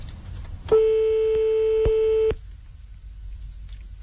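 Telephone ringback tone heard while calling someone back: a single steady buzzing tone lasting about a second and a half, then quiet, with no voices.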